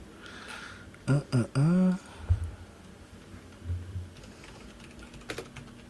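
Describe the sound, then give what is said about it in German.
Computer keyboard typing as a chat command is entered: a few faint, scattered key clicks following a brief burst of voices. “Du schreibst einfach /roll d20. Wo schreibe ich das? In den Chat.”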